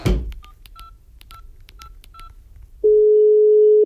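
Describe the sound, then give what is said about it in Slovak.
Touch-tone telephone keys dialing a number, five short beeps at an uneven pace over faint background noise, followed by a single loud, steady held tone. “Áno, idem telefonovať.”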